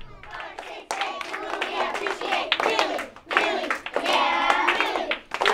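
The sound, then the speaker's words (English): A third-grade class clapping and calling out together to start the school day, with sharp claps punctuating lively children's voices in bursts. “That's the sound of third graders pumping each other up to start the day.”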